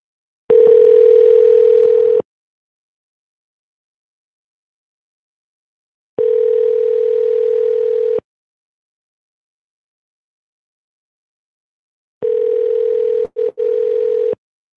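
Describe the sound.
Ringback tones of an outgoing telephone call during a prank call: three long, steady, mid-pitched tones of about two seconds each, separated by silence, with the third briefly broken.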